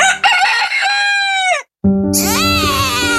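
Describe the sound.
A rooster crows loudly twice: long, bright, harmonic calls that hold and then drop away, separated by a moment of silence.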